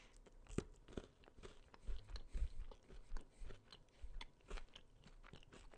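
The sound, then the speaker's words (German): Biting and chewing a Hershey's Crackle bar, chocolate with crisp rice, produce a faint, irregular series of many small crunches and crackles with no talking. “Crackle. Made with Chocolate and Crisp Rice. Okay, den probiere ich jetzt. Live im Audiobuch probiere ich amerikanisches Süßwaren.”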